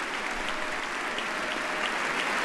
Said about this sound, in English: receiving a hearty round of applause